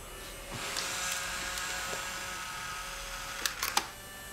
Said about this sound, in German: Achtung, Foto.